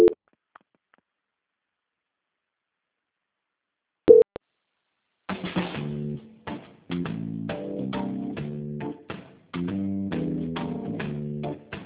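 A telephone call transfer tone: near-silence broken by two brief beeps, then a looping electronic melody of short, steady notes repeated in phrases.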